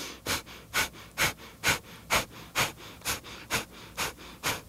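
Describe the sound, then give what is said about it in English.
Ten short, sharp breaths pumped in and out through the nose with the mouth closed, driven by the abdomen. They form an even, rapid chugging rhythm of hissing puffs at a steady level. “So it's just this little chugging sound, and that's the mouth closed. Everything's coming in and out through the nose.”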